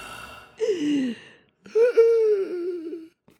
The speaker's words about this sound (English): Anyway, I kind of like inhaled dust just then.